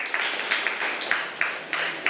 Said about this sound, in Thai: ครับปรบมือเพื่อนด้วยนะครับ